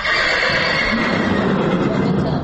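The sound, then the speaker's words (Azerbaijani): Horses in a stable neigh and whinny loudly and continuously, their rough, overlapping calls filling the whole short stretch. “Tövləyə girən kimi tanış səsə səs verir atlar.”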